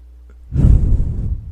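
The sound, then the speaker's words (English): A single deep breath, loud and close, as a breathy rush of air starts after a brief quiet moment and carries on steadily to the end. “let's go ahead and just take a deep breath in and hold it.”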